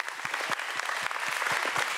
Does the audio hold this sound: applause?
yes